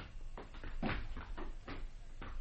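A home door being opened for arriving guests, heard as a series of soft wooden knocks and rattles at a low level, with no voices.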